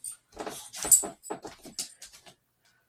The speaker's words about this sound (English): Yep, my dog's back. Hi, Princess.